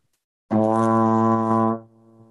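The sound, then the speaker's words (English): A single low B flat on a brass instrument, deliberately played badly with the air speed and attack suited to a higher B flat. One loud, buzzy, steady note starts abruptly, holds for over a second, then drops to a faint lingering tail. “If I played that low B flat with the same air speed, attack, and everything as the first B flat, probably sound like this.”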